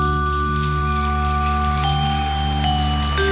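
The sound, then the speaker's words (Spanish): Heavy rain falls in a dense, unbroken hiss that stays loud and even throughout, with sustained tones running beneath it. “Es muy tarde, llueve tanto que”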